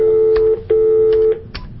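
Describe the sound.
A telephone is dialed: a steady dial tone breaks off briefly and resumes, with a few short key clicks over it.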